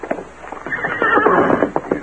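A horse neighs in a long, shaky whinny that swells in the middle, with clip-clopping hoofbeats at the start and end, loud and clear.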